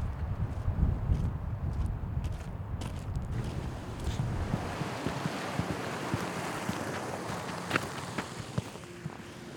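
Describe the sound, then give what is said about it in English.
Gusty wind ahead of the first autumn storm buffets the microphone with a low, rumbling roar that eases into a steadier broad hiss, dotted with scattered faint clicks and ticks. “Apparently the first fall storm is supposed to blow in the next couple days, and I can hear it right now.”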